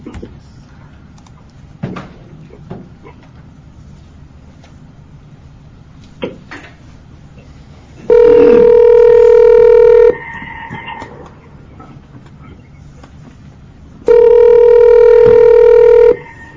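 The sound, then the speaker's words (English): Telephone ringback on a conference-line call being placed to a remote participant: two long, steady buzzing rings, each about two seconds, separated by a pause, with a few faint clicks before the first ring. “I'm now going to call Mr. Zarifi.”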